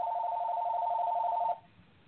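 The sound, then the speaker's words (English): Telephone ringing: a rapid, warbling electronic trill holds steady and fairly loud for about a second and a half, then cuts off abruptly into quiet. “It's probably Con Ed calling again. Probably telemarketer.”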